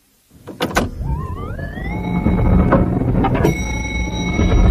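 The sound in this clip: An elevator in a New York building starts with a few clicks and thuds, then its motor whine rises in pitch and settles into a steady hum. Another clunk, like the doors, comes partway through.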